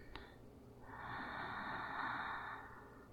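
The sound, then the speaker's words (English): A single deep breath drawn in, a soft airy rush that swells and holds for about two seconds before easing off, heard alone with no talking. “Take a deep breath in”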